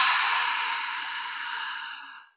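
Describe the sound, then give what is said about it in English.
A long, deep, airy breath out through the mouth, part of a slow breathing exercise, stays soft and steady for about two seconds and then fades quickly to silence. “Take a deep breath in through your nose to smell the rose, and a deep breath out through your mouth.”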